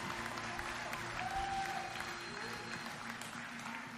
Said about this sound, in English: So if you would, give my wife a great big hand as she comes to share.